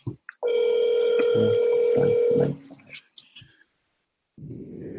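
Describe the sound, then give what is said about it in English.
A telephone dialing a number: a brief tone, then a loud, steady tone lasting about two seconds, followed by a few faint clicks and short tones, a stretch of quiet, and a burst of noise at the end. “Let's call this other number. This was the number that called.”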